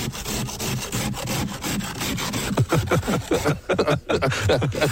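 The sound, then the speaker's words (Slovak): Frost scraped off on a frozen morning, heard as many rough, rhythmic scraping strokes in a steady back-and-forth pattern, loud and continuous with no talk. “dobre zamrznuté ránko. Ja som dnes ráno škrapkala.”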